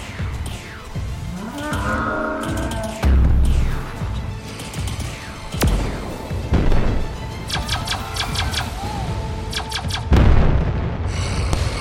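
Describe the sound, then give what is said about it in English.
Explosions burst as airships attack warriors on the front and back lines of a battle, with a few heavy booms standing out amid dense, layered sci-fi effects and mechanical clatter. “Gideon and the others commanded the airships to attack their own Drax warriors on the front and back.”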